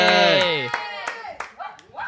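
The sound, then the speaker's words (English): A few scattered hand claps from a small show audience as a guest is introduced, thin and sparse under a loud speaking voice. “Those claps are going to come out terrible, aren't they?”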